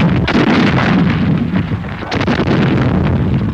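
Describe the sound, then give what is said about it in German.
A captured English artillery gun fires during paratrooper fighting near Suda Bay on Crete. A few sharp booms break through a loud, continuous rumbling din, with no voices. “Ein erbeutetes englisches Geschütz. Schnell haben sich unsere Fallschirmjäger mit dieser fremden Waffe vertraut gemacht.”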